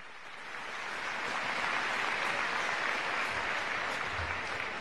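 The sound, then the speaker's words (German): Applause for the castellers of Vilafranca del Penedès after they raised a 3 de 8 human tower, a dense, steady clapping from a large crowd that swells in the first second and then holds loud and even to the end. “levantado por el grupo La Colla Castellera de Vilafranca de Penedès. Un aplauso para ellos.”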